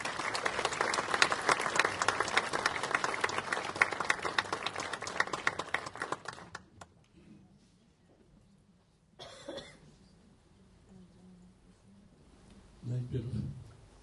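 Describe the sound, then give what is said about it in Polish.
An audience applauds at a ceremony marking the 15th anniversary of a Polish county's self-government. Dense, loud clapping lasts about six seconds, then dies away into quiet with scattered coughs and a few low shuffling noises. “Wielkie, wielkie brawa.”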